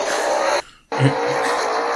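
A stock car in an Xfinity Series race does a burnout on the front straightaway, a loud, dense roar of engine and squealing tires that cuts out briefly midway before surging back.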